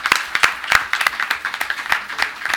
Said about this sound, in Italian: proporrei di fare un applauso fin d'ora